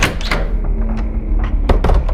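A house front door being opened, with a few loud thuds and knocks over a low rumble.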